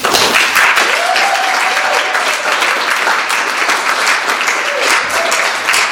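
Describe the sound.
Audience applause welcoming a speaker to a fiction reading, many hands clapping in a loud, steady wash that fills the whole stretch without pause.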